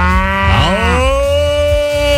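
A cow moos before the first morning milking. It gives one long, loud bellow that starts low, rises in pitch and then holds a steady, richly harmonic tone to the end.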